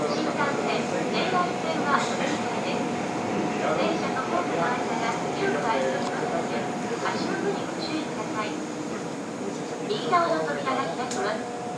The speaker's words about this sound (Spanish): estamos en el metro de Kioto y ahora nos vamos a bajar en la estación para coger el tren.